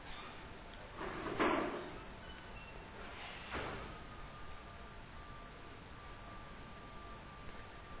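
A door is pushed closed: two brief, faint scraping bursts stand out over a steady low background hiss and hum.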